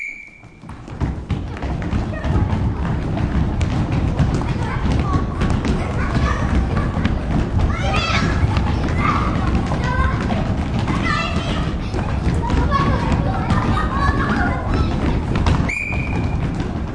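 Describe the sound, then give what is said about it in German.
First- and second-grade schoolchildren playing tag, a steady loud din of children's shouts and chatter with thudding footsteps throughout. “Es sind Kinder in der ersten und zweiten Klasse. Und die dürfen jetzt Fang spielen.”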